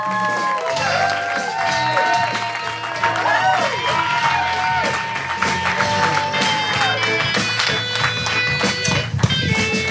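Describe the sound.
Theater audience at the UCB Franklin Theater cheers and applauds as a DJ and a second performer are welcomed to the stage. Sustained clapping is mixed with whoops and shouting voices.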